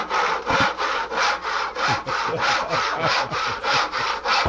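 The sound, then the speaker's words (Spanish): Hand sawing through panels being cut to cover windows, many steady back-and-forth strokes in an even rhythm, each a rough rasping scrape with no talk over it. “ya está cortando los paneles, cortando los paneles para ponerlos en las ventanas”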